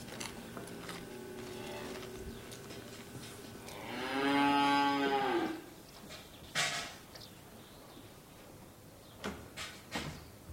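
A cow lets out one long, loud, low mooing call lasting about a second and a half, set against a quiet background with a few faint knocks and rustles afterwards.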